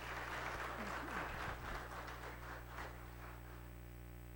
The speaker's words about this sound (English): And so, if you would put your hands together and welcome him as he as he comes forward.